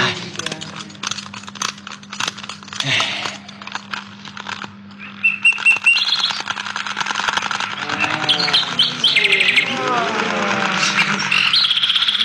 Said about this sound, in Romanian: Și acum să fie arătată poporului privighetoarea de aur.